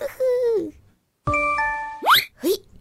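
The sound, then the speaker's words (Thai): A LINE messaging-app notification chime on a phone: a short, clear electronic tone that steps between two notes, set between brief voice-like sounds before and after. “นั่นคุณปู่ไลน์มานี่นะ”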